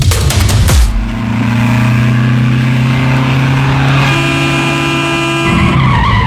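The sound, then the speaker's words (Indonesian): Tire squeal from a speeding car skidding and nearly hitting a pedestrian who is crossing: a loud, steady, high screech held for several seconds after an opening burst of harsh noise. “Hati-hati atuh, Pak. Gak usah ngebut segala. Aduh, hampir aja nabrak yang lagi nyebrang.”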